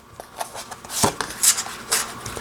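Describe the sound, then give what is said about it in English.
Soft papery rustles and light slides as a tarot card is drawn from the deck, a few brief quiet scrapes and flicks in a loose row. “Let's take another card from here.”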